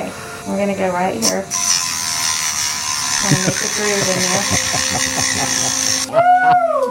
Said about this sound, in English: They used a small rotary saw. And here's the sound of her getting 24 feet of fingernails cut off.